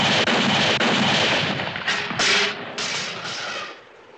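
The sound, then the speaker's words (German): Several loud gunshots boom out one after another, each a sharp crack with a lingering tail, the later ones a little quieter before the sound fades at the end. “Los, schieß!”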